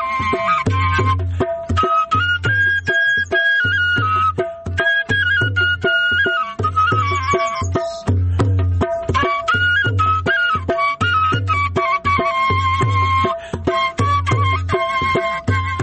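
A shepelai flute carries a plaintive, wavering melody over a steady, pulsing low beat. The music plays loud and continuous throughout, with no voices.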